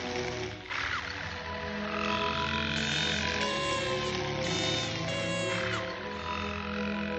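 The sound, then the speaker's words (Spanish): Frogs and crickets sing outside at night. Low, repeated croaks sound under a layer of high, tonal chirping that swells and fades in a few waves across the stretch. “Fuera, las ranas y los grillos cantan.”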